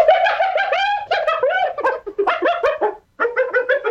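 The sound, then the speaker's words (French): A hyena cries in many rapid, high, giggling whoops that bend up and down, loud and alone, broken by one short pause near the end. “C'est le cri d'une hyène.”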